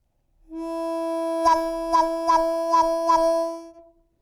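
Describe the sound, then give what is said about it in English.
A sustained harmonica chord is broken five times by quick, rhythmic chops as the player's cupped hands snap closed and cut the note off, before it fades out. “Let's try opening the cup more from the heels of your hands and close it very rapidly, cutting the note off. That will give you a sound like this.”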